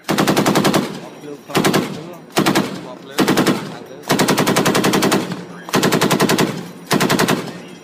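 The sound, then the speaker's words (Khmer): Rapid automatic gunfire from naval ships firing live rounds at targets at sea in a two-navy exercise, including small, lightly armed patrol boats: seven loud bursts of fast, evenly spaced shots separated by short pauses. “កងនាវានៃប្រទេសទាំងពីរបានបាញ់គ្រាប់ពិតចេញពីនាវារៀងៗខ្លួនទៅលើផ្ទាំងសៀបនៅចំកណ្ដាលសមុទ្រ”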